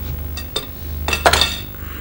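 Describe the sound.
Dishes and utensils clink in a home kitchen while a cake is being baked: a few short, bright knocks and clatters over a low steady hum, with no voices.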